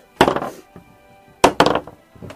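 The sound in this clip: A d20 die is rolled across a tabletop, making a few short clattering, knocking bursts that rattle briefly and die away, with quiet gaps between them.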